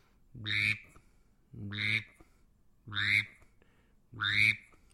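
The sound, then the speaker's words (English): A male mallard drake call imitated on a handheld duck-call whistle, with a hand adjusting its megaphone end: four evenly spaced, raspy, nasal quacks, each a short rising burst, sounding alone against quiet. “So one more time, this is the male mallard call.”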